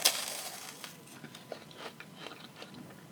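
A crisp crunch of someone biting into a sweet meringue, followed by faint crackling and chewing.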